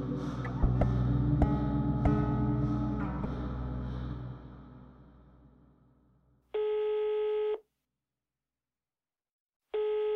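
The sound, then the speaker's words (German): A telephone call ringing out: a fading mix of low rumble and scattered clicks gives way to a steady ringback tone lasting about a second, then silence, then the tone starting again. “Ich habe Frank nach unserem Gespräch bei seiner Mutter unterm Dach nochmal angerufen.”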